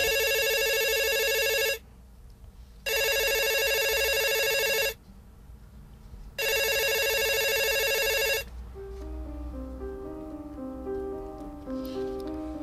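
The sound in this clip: A telephone rings for a call in a film scene, sounding three long, bright, buzzing rings separated by short pauses, then soft melodic music takes over.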